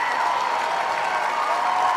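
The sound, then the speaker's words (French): Applause from a beyond-capacity tennis crowd giving a standing ovation on the court: a loud, dense, unbroken wash of clapping that stays steady from start to end, with no single claps standing out. “Isner who stays on court to take a standing ovation from this beyond capacity crowd on court 18”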